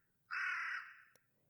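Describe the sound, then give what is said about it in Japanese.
A crow caws once at dusk: a single loud, harsh, drawn-out call that holds steady, then fades away, heard alone against quiet surroundings. “夕暮れにカラスが鳴く。”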